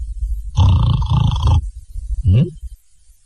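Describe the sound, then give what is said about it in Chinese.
Snoring of a person asleep in a wooded grove, apparently imitated by a voice: one long, loud, rumbling snore, then a shorter snore after a pause. “他在这坐着，听着旁边有人打呼噜。”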